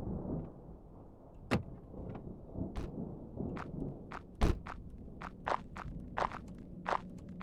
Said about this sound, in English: We walked slowly and methodically to the entrance into the door.